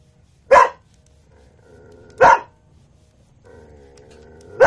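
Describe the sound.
A dog barks in short, sharp bursts: two full barks about two seconds apart, then a third just starting at the very end, over a faint low hum.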